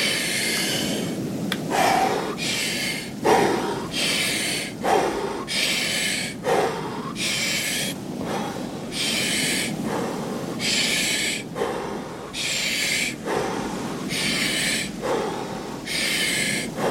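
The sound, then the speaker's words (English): Deep, forceful breaths from a thirty-breath breathing exercise, many loud inhales and exhales in a steady, quick rhythm with no talk over them. “Trust yourself, deep as you can. With me. Let's go. Inhale, 30 breaths.”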